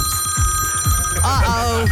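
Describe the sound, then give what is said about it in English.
A phone notification tone rings out as steady, high electronic tones that run throughout, heard under overlapping voices talking. “Why have you got notifications coming through? I can't work out how to turn them off.”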